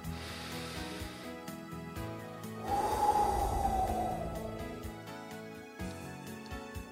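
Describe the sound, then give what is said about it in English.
A deep breath drawn in during a breath prayer: one long, airy inhale that swells and slowly fades, heard over steady background music. “Let's have a breath and have a prayer.”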